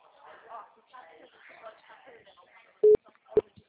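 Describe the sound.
An outgoing telephone call gives two short, clear, mid-pitched beeps, the first a little longer than the second, after a stretch of talking.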